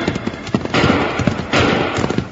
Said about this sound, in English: Just as Bill got the coins in his hand, a hidden rifleman opened fire on them.